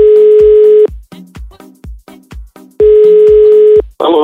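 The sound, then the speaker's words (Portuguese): Telephone tone as a call is placed: a steady, loud hum-like tone, then a rapid series of short pulses, then the steady tone again, with a brief burst of different sound at the very end. “Então agora uma ligação surpresa de um contato que entrou lá pro direct da Lígia.”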